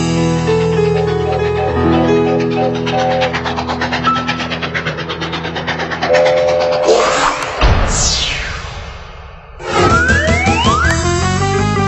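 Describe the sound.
Train sounds: a loud, dense rumble with steady droning tones, then swooping whistle-like tones that fall and rise in pitch near the end.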